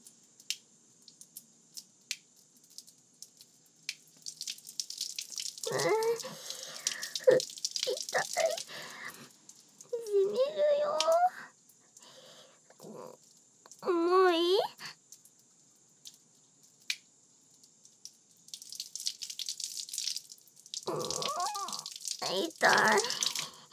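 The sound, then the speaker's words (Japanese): Water runs from a tap as feet are washed, a hissing flow that starts and stops several times with splashy bursts, while a voice talks in the gaps. “足洗う。”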